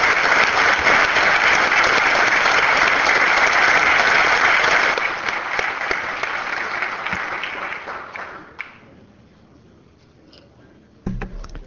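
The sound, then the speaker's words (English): Applause welcomes honorees from a small school system in a legislative chamber: dense, loud clapping that thins and fades over several seconds until it stops, followed by a brief thump. “Let them be an example of what is possible when a small community invests its resources wisely and economically. Let's give them a nice Welcome. Hand.”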